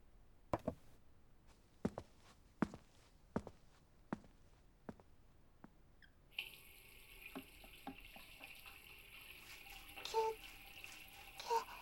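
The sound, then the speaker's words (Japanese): A mug is washed under running water: several sharp taps come first, then a tap runs in a steady, faint stream with small splashing changes. “お兄ちゃんのマグカップ、ユニコーンが洗ってもいい？”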